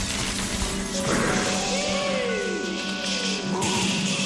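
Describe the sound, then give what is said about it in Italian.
A chandelier falls to the floor and shatters into countless pieces, a loud, dense crash carrying ringing, wavering tones that persist throughout. “La mia testa incontra sulla sua traiettoria proprio il lampadario che cade a terra in mille pezzi.”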